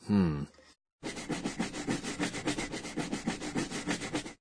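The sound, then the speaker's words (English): Scrubbing something clean to remove dirt: many quick, rhythmic, raspy rubbing strokes in a steady back-and-forth pattern, preceded by a brief voice. “This is the sound of scrubbing. The sound word for this describes how we give something a scrub to remove dirt or stains.”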